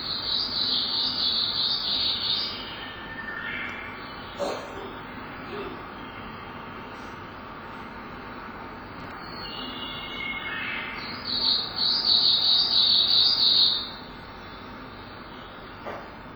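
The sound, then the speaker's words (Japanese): A Japanese leaf warbler sings two bursts of high, rapid, buzzy phrases, one at the start and one later. A quieter stretch of faint background sound separates them. “このメボソムシクリの聞きなしは、ゼニゾリゼニゾリと、聞いていますし、”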